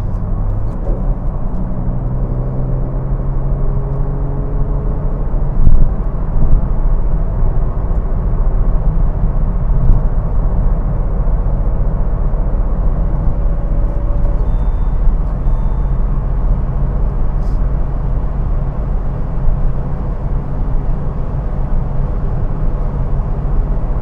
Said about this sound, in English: Oh, I'm going to get back in the fast lane here. Oh, green light. Go, man, go.